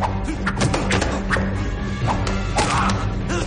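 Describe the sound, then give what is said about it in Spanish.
Blows land in a science fiction film fight in which one man attacks with a knife. Several dull thwacks and thuds sound over a dense, continuous bed of action noise. “A continuación, golpea a Beck en un brazo.”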